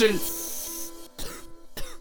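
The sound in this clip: Harsh, rasping coughing after smoking: two rough bursts of coughing follow a brief sustained tone and a breathy exhale, each cough sharp and fairly loud.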